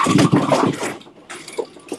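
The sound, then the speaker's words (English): Mechanical whirring and clatter of a bowling pinsetter cycling to sweep the rack after a second ball, steady and louder at first, then easing to a lower hum with a few brief knocks. “there's a time delay of a few seconds, it's going to cycle, and now it's the second ball, so it's going to sweep the rack”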